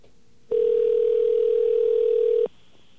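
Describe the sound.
A telephone dial tone sounds as one steady, unbroken hum lasting about two seconds, fairly loud and alone, then cuts off abruptly, with quiet line hiss before and after.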